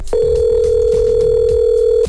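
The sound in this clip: A telephone tone sounds while a call is being placed, one steady unbroken mid-pitched tone lasting about two seconds at constant loudness.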